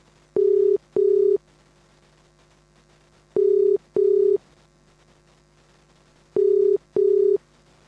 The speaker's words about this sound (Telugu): ఒక్క నిమిషం, నేనే కాల్ చేస్తున్నాను.